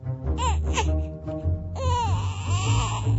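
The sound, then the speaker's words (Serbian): A baby who cannot yet talk sits on the floor and cries loudly, with several strained, rising-and-falling wails that grow fuller and louder in the second half. “A kad nešto ne ume i ne može, Silvija prosto sedne na pod i plače iz sve glasa.”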